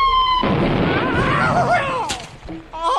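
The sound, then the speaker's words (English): A missile arrives and explodes against a wall, a sudden loud burst of rumbling blast noise with whistling tones inside it, lasting about a second and a half before breaking up and dying away, then a brief tonal sound. “Point it towards a large portion of the Sebastopol wall. Ready? Fire! We now go over to Sebastopol wall to hear the arrival of the missile.”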